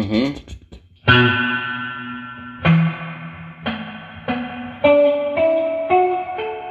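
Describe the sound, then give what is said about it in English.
An electric guitar plays through a delay pedal with repeats turned all the way up and the mix turned back, producing a reverb-like wash. Several picked notes and chords each ring out into long, smeared, slowly fading tails. “So it is just a reverb. That is made from a delay, but what it is it's a delay that is turned all the way up. So you get your basic repeats turned all the way up, your mix turned back,”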